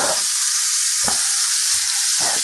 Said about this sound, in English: I've got the pan sitting on the stove. It's on the burner. I think I've got it set to high, though.